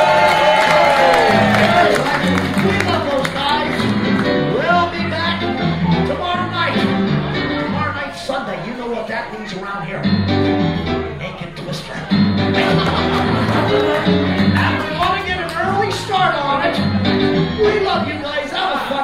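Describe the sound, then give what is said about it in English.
A crowd cheers and whoops for the hard-working staff at a night event, a loud, sustained roar with laughter and applause mixed in that keeps going for the whole clip. “Make some noise for the staff working so hard.”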